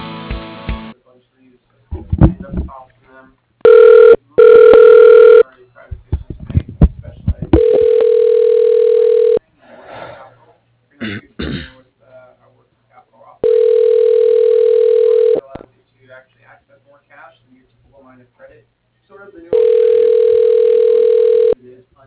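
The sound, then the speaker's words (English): A telephone call being transferred: two short tone bursts amid brief talk, then a steady ringback tone in three long buzzing stretches of about two seconds each, separated by regular silent gaps. “I'm gonna go ahead and transfer you to Neil”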